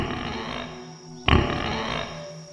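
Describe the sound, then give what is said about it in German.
In a children's pirate story, a creature lets out a gruff, low grunting roar that bursts in suddenly midway and rumbles on, following a softer steady background tone. “Anschließend schickt es noch einige Grunzlaute hinterher.”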